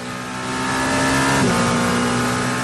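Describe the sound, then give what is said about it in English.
A race car engine at the Le Mans 24-hour race, a loud, buzzy drone that swells over the first half-second and then holds a sustained, even tone with no voices. “It's Le Mans, the 24th running, the 100th anniversary. And how fun is it that you can go to YouTube and get inside the cars with a live stream?”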